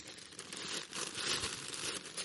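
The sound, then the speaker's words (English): A wrapper is torn open on sweets, making a continuous soft crinkling and tearing rustle that stays fairly quiet and steady throughout. “Rip it off. It doesn't matter. Ah. Sweeties.”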